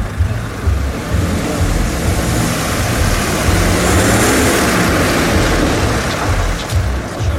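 A car pulling away with passengers inside, its engine a continuous loud rumble with a broad hiss that stays fairly level throughout.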